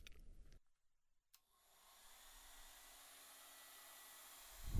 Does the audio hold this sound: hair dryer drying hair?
yes